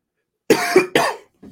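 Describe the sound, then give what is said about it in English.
Coughing: three harsh coughs in quick succession, followed by a fainter, shorter one after a brief pause. No speech. “Sorry for the coughs once again.”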